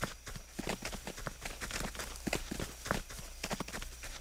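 Quiet footsteps of a few people walking along a street at night: a long, steady run of soft, light steps over a low, constant hum.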